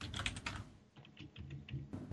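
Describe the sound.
Fingers tap a computer keyboard in a faint, quick patter of many light key clicks, unevenly spaced, with no voices over it.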